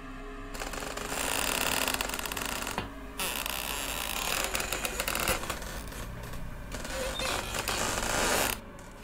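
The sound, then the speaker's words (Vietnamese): Old rusty door hinges creak in several long, grating, drawn-out groans separated by brief pauses, harsh and fairly loud throughout. “Cụ Tuân chợt giật mình, bởi vì cụ nghe tiếng bản lề lâu ngày đã han rỉ rít lên những tiếng ken két”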